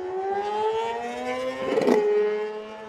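Suzuki racing motorcycle engine sputtering as it leaves the start line, a loud droning engine tone that breaks into a brief, rough crackling burst midway before settling back into a steady hum.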